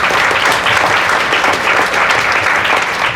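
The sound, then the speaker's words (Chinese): Loud applause from an audience at a nutrition and medicine forum talk. Dense clapping holds steady for the whole clip, with no voices over it. “4块钱是不是要给我们慧琴姐一个热烈掌声？”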